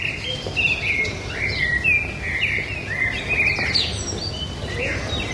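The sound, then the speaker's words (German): Birds chirp and twitter from the trees of a city square in Venice at morning, many bright, quick calls overlapping continuously over a steady low rumble. “Aus den Bäumen am Campo San Lorenzo empfingen sie das Gezwitscher der Vögel, die den Morgen begrüßten.”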